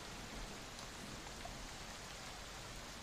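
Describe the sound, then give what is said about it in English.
Rain falls outside around midday, a soft, even hiss of drops that stays constant throughout, with no voices. “So the rain has continued outside. It's about noon now, and the rain continues to come down outside.”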